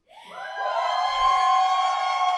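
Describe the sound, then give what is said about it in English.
Audience fans cheering as guests are announced onto a stage, a high-pitched shriek of excited voices swelling in quickly and holding at a strong, steady level. “Oh, you got some fans in the audience.”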